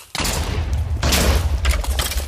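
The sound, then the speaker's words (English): Video game gunfire pours out in loud, sustained bursts with a heavy low rumble. The volley swells and dips a few times with no real break, and no one speaks over it. “Okay, I'm shooting for the eyes.”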